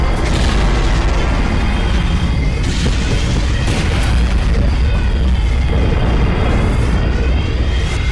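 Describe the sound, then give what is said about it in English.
A sci-fi spaceship jump drive engages in a loud, sustained roar with heavy bass and rolling booms, holding its full force for about eight seconds. “Engaging the jump drive.”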